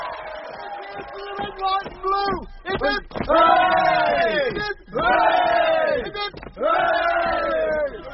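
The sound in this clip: A crowd cheers for the Navy, with scattered shouts giving way to three long, loud hurrahs in unison, each swelling and then falling away.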